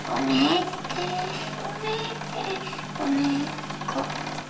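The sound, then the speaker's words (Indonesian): A sewing machine running with a steady, continuous mechanical rattle and whir, holding an even level throughout. “Oh, ini mesin jahit.”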